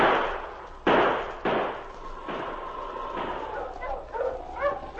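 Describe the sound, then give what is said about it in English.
Distant gunshots in a rocky mountain pass: two sharp, loud cracks with decaying tails, then weaker reports and a drawn-out whine that fades into a few short bursts. “As Tex, Pierre, and Alex entered the pass, they could hear the distant shots”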